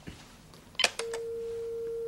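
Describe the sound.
A telephone ring tone heard over a speakerphone as a call is placed. A brief burst of clicks comes first, then one steady, unbroken pitch holds to the end.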